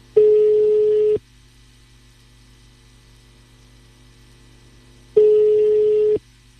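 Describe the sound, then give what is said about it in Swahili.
Ringback tone of a phone call waiting to be answered: two steady, evenly pitched buzzing rings of about a second each, separated by a long gap, over a faint constant low hum. “Wewe naomba Mama Mary aweze kushika simu yetu.”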